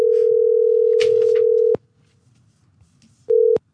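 Ringing tone of an outgoing telephone call to a bar in Italy: a steady low tone holds for almost two seconds, ends in a click, gives way to a quiet stretch of faint line noise, then sounds again briefly.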